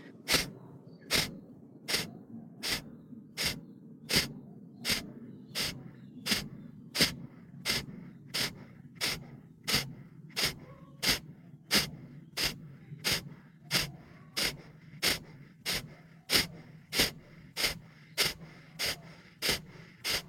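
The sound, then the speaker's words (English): Forceful exhales in a breathing exercise: many sharp, breathy bursts at a fast, steady rhythm, each a short puff of air over a low, constant background. “Forcing our exhales out and only focusing on that, the inhales come naturally. We're going to go 30 seconds, 3 rounds, and let's begin.”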